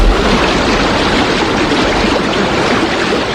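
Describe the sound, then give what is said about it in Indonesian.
Roaring water surges up through the ground and floods a farmer's village until it forms a lake, a loud, dense, unbroken rush that holds steady from start to finish. “Dan tiba-tiba saja, semburan air muncul ke permukaan. Petani dan seluruh kampungnya terendam air sehingga membentuk danau.”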